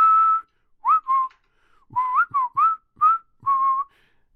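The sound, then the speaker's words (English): Human whistling, heard as about eight clear, mid-pitched whistled notes with sliding bends, in short separate phrases with pauses between them and no talk. “Or male enhancement whistling.”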